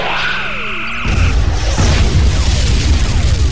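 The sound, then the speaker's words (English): Sci-fi phaser weapons firing in a space battle: repeated falling zap sweeps, joined after about a second by loud, dense booming blasts that carry on to the end. “We're in a crossfire! Phasers fire! Phasers fire!”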